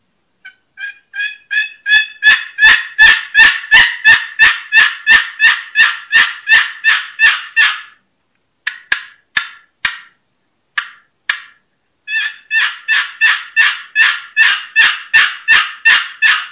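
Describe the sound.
A Pollard turkey box call imitates a hen turkey with long runs of raspy, rhythmic yelps that start soft and build in loudness. A pause and a few scattered notes follow, then another steady run of yelps.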